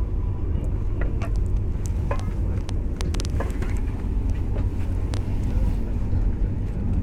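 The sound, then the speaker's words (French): Steady low rumble and hum inside a moving TGV high-speed train on the Lille-Europe line, with scattered faint clicks and rattles over a constant level. “Voici maintenant un peu plus d'une heure et demie que je suis dans le TGV Lille-Europe qui va me conduire directement à l'aéroport Charles de Gaulle.”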